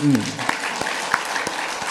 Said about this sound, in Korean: 목사님께 한번 박수해드려요.